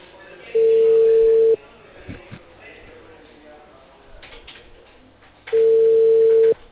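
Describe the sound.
Ringback tone of an outgoing phone call from a cable company to a customer: two long, steady single-pitch tones separated by several seconds of low background murmur.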